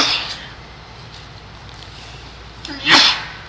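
A single sharp sneeze breaks out near the end after a stretch of quiet, short and loud.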